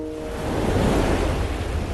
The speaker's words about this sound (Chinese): 起风了，赶紧撤。